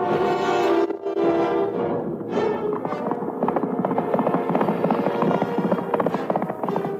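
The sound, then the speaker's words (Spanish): A galloping horse carries its rider along a road toward the woodcutters' clearing, with fast hoofbeats in a continuous, rapid clip-clop that stays steady throughout. “una muchacha muy conocida de todos salía de Bottle galopando por el camino que lleva hacia el corte de los leñadores.”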